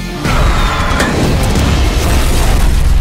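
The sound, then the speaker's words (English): A loud explosion from a grenade tied to a Russian tank shell: a sudden boom after a short quiet start, followed by a heavy, sustained low rumble that lasts to the end. “It's a grenade I tied to a Russian tank shell. How many people does this blow up?”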